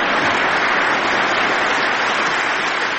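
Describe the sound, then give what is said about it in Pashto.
Members of the US Congress stand and applaud Afghan President Ashraf Ghani's speech in Washington: continuous, even clapping from many hands that forms a dense hiss, steady and unbroken from start to end. “د اشرف غنی دې خبرې ته د کانګرس غړي پاڅېدل او چکچکې ورته وکړل.”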